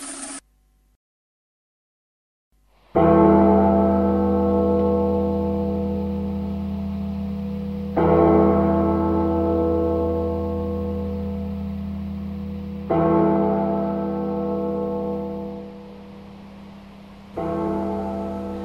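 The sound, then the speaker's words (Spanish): Heavy bells tolling to call a city evacuation: four deep strikes at slow, even intervals, each ringing note decaying gradually before the next one lands. “Las campanas que se están escuchando atrás están llamando a la evacuación de la ciudad.”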